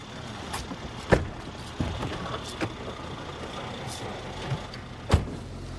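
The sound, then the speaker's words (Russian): A car drives along a narrow road beside fields, giving a continuous rumbling road noise broken by a few sharp knocks and bumps, with no voices. “Машина едет по узкой дорожке вдоль полей.”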